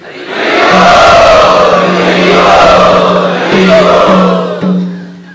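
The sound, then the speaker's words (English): A gathered audience chants together in welcome, making a loud, sustained wash of many voices over a steady low drone. It swells in and holds, then eases off toward the end. “let us welcome them by chanting.”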